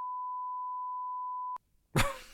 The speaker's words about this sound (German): Das müssen wir piepen, das piepen wir leider. Da muss ich mir mal den Timecode aufschreiben, das wird rausgepiept.